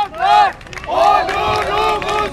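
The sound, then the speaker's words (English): Supporters cheer outside the main criminal court in Istanbul's Beşiktaş district as police buses arrive, loud bursts of shouted voices rising and falling in several waves, with crowd noise in between. “A gaggle of supporters cheers as police buses bring in young men accused of political violence.”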